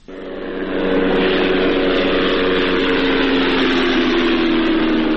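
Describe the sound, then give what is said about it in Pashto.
An unmanned drone flying over Ghazni, Afghanistan, produces a steady, loud mechanical drone. The sound swells within the first second, then holds a constant buzzing hum with no voices. “دا د هغه بی پیلوټ الوتکې غږ دی”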